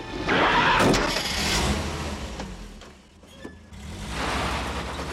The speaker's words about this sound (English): she climbs into the driver's seat of the truck and pulls away.